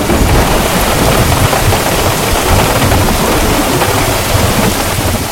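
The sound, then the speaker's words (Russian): Heavy rain drums on tree leaves and a taxi roof at night, a loud, dense, unbroken hiss that holds steady throughout, with no voices. “Ночь. Сильный дождь колотит по листьям деревьев, по крыше такси.”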